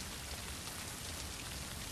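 Steady rain falling, a dense, continuous hiss of drops with no breaks, fairly loud and heard alone without voices.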